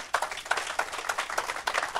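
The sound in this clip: A short burst of audience applause welcomes a pastor being introduced to speak: dense, irregular hand claps at an even loudness, alone.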